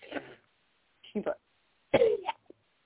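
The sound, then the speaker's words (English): Coughing from a person choking on their own saliva, three short, separate bursts with pauses between them, the last one rough and strained with a small catch at its end. “Sorry, I just coughed. Sorry, inhale. I choked on my own saliva.”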